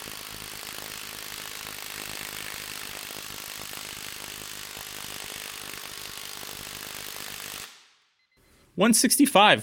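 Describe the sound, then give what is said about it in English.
A Milwaukee power tool tightening a bolt at its max setting, mode 3, makes a dense, continuous rattling hammer for about seven seconds. It then stops abruptly, and after a short silence a voice speaks. “Let's turn the Milwaukee up to mode 3, its max setting, and find out.”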